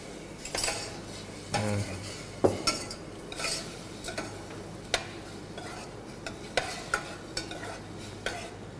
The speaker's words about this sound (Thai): ตอนนี้เนี่ยเราก็รวนหมูไปเรื่อยๆการรวนแตกต่างกับการผัดการทอดการเจียวอย่างไรการรวนเนี่ยจะใช้ไม่ใช้น้ำมันนะฮะ